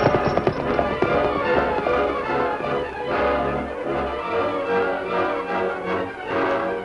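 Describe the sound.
Clip-clop of horse hooves as riders set off toward a ranch, one horse urged on by name as Golden Boy; quick, repeated hoof taps at a steady trotting pace, fairly loud throughout.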